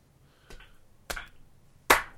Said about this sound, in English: We can sync the voices later. Can you just, like, clap one time?